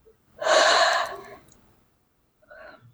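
A deep breath: one long, loud inhalation lasting about a second, then a short, quieter breath near the end.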